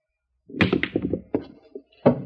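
Pool balls clack and thud as the three ball is shot and sunk, a quick run of a few sharp knocks and dull thunks, with one more solid knock near the end.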